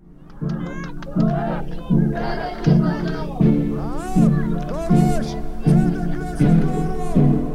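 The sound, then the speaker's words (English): A crowd of protesters in Tel Aviv, gathered over a verdict in a murder case, chanting and shouting together over a steady, regularly repeating low pulse, with voices rising and falling throughout. “What you're hearing is a crowd of protesters in Tel Aviv.”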